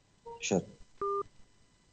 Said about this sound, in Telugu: ఒక్క నిమిషం మనం కాల్ చేసుకుందాం.